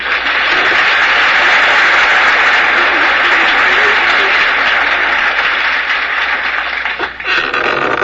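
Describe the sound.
Applause welcoming the first speaker at a recovery panel: dense, steady crowd clapping that holds at full strength throughout, dipping briefly near the end before picking back up.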